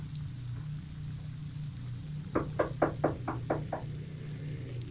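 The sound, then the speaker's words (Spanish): Knocking on a door: seven quick, evenly spaced raps in one brief run partway through, over a steady low hum. “Alguien tocó a la puerta, pero yo no quería despertar.”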